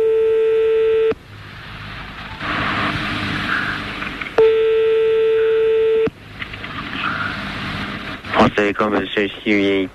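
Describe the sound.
Telephone tones sound as a number is called: two long, steady electronic beeps separated by stretches of faint hiss, then a voice comes on at the end.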